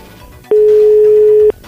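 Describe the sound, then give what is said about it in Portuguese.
Telephone ringing tone on a call: a single loud, steady mid-pitched tone lasting about one second, alone, with faint background hiss before and after. “Peraí, chama, chama, chama, chama.”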